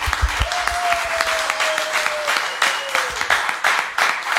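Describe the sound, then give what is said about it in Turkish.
An audience applauds at a performance, a dense, continuous clapping that stays loud throughout. “Alkışlar”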